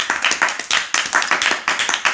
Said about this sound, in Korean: 박수! 와.